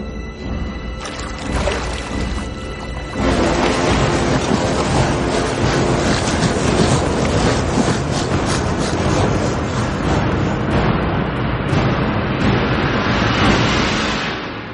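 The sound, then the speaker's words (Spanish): Rushing water of a river running through rough, broken terrain between high stone walls: a dense, steady roar that starts softer, then swells after about three seconds and stays loud and unbroken to the end. “El río corre por un terreno abrupto y serpentea entre altos muros de piedra.”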